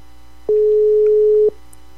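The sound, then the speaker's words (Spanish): A telephone busy signal sounds while someone dials out: one steady, mid-pitched beep about a second long over a faint, constant line hiss. “Seguimos llamando. Vamos a ver a quién nos encontramos.”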